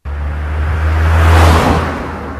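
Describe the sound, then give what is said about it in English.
A car passing by, a low engine rumble with a broad rushing whoosh that builds to a peak midway and then eases off, loud and without voices. “Car passed by?”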